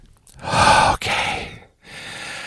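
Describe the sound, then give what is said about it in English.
A person takes a deep breath, heard as a few loud, airy breath sounds, with a brief pause between the later breaths and no talking. “Take a deep breath. Take a deep breath, just like that.”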